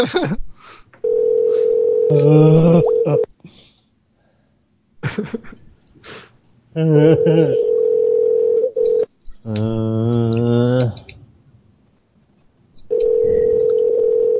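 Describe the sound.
A telephone dial tone sounds, followed by dialing to call back. The steady tone returns several times, and voices are heard intermittently between and over it.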